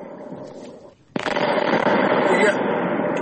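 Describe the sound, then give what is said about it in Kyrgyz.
Artillery shells and mines exploding in a fire at a military ammunition depot in Russia's Krasnoyarsk region: a quieter rumble, then a sudden loud blast that turns into a sustained, roaring crackle. “Разрывы снарядов.”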